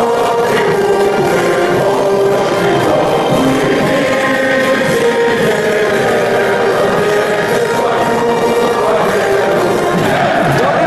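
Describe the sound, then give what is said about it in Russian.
Football fans with painted faces roar from the stands while waving flags and playing instruments. The crowd makes a loud, dense, unbroken wash of voices that holds for about eleven seconds. “Болельщики с раскрашенными лицами размахивают руками, флагами, поют, играют на музыкальных инструментах.”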